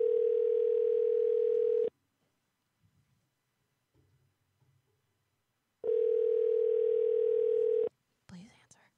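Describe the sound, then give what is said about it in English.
An outgoing phone call rings while calling someone back: two long, steady, even ringback tones of about two seconds each, separated by a pause of roughly four seconds with faint rustles, and then a voice begins to speak. “You want me to call him back? Yes. All right, fuck it. Here we go.”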